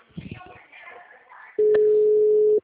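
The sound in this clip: A telephone line tone on redialing: a single steady, mid-pitched beep of about one second, loud and even, preceded by faint, murmuring voice-like sounds.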